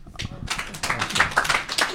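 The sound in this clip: Clapping from a few people welcoming a guest, a Taoist priest, on a Chinese talk show: a scattered run of sharp, uneven claps with voices talking underneath.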